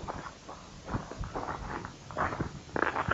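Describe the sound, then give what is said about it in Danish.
Footsteps walking past the gable of a church outdoors, in a fresh northerly breeze: a series of uneven, soft steps with scuffing and rustling, no one speaking. “Så går vi hen forbi gavlen på kirken. Og hen til det næste.”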